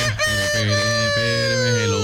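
A rooster crows in one long, loud, richly harmonic call that holds steady throughout and drifts slightly lower toward the end.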